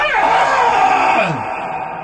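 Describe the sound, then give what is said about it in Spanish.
A person screams loudly in one sustained, strained yell that drops in pitch and trails off toward the end. “Grite conmigo”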